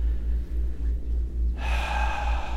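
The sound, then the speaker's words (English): A deep breath drawn in: a long, airy rush of air starts about halfway through and carries on to the end over a low, steady hum. “Let's just take a deep breath.”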